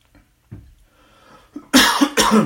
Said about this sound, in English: Oh, I got a dry throat. Excuse me.